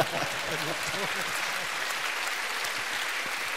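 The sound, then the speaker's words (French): Audience applause fills the whole stretch as an even, dense roar of clapping, with a voice briefly audible underneath near the start. “On peut avoir un applaudissement pour quitter le”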